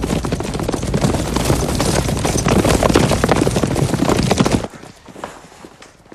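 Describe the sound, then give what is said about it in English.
Hooves of about a dozen horses carry officers into a courtyard as a dense, loud clatter of overlapping hoofbeats for several seconds, which then drops abruptly to a faint tail. “The officers, about a dozen of them, ride into the courtyard.”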